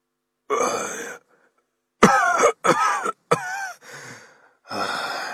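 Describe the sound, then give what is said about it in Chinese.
An old man coughs several times while out of breath, with rough, strained bursts separated by short gaps and a final long, breathy exhalation. “老夫脸色煞白，气喘吁吁，咳嗽了几声”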